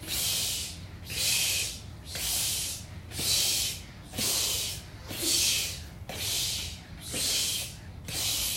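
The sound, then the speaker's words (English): A voice imitates the hiss of an old, broken oven heating up, producing nine breathy "psh" bursts in a steady, even rhythm, each a loud airy hiss separated by short pauses. “And our oven is kind of old and broken. So can you go, psh, psh, psh, psh, psh, psh,”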